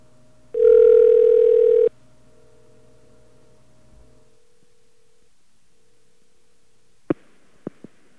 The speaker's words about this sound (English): Dial tone, please.